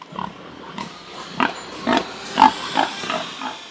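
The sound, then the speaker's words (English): Pigs and piglets grunting on a farm that raises and weans piglets: a series of short, punchy grunts with a few higher squeals, loud and close together. “This operation is all about raising piglets, which are weaned after 20 days and shipped out to be raised to other farms”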